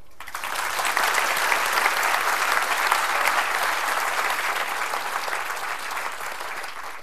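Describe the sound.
Warm audience applause welcomes author André Brink before his reading from Praying Mantis, a dense, even roar of many hands clapping that holds steady for several seconds and then eases off slightly at the end.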